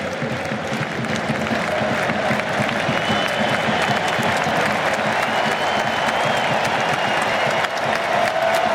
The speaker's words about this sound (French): Ah, belle ovation.